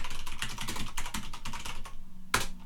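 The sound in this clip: Rapid typing on a computer keyboard while entering a file path, producing many quick, crisp keystrokes in an uneven rhythm. A short gap is followed by one louder, sharper key press near the end.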